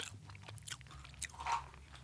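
Biting and chewing a salty, crunchy peanut snack produces a few crisp, faint crunches with small scraping sounds between them.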